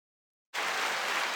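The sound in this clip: Applause sound effect: a loud, steady wash of crowd clapping that starts abruptly after a short silence and holds at an even level to the end.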